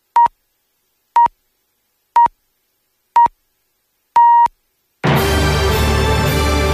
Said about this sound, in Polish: Program Trzeci Polskiego Radia wybiła 8.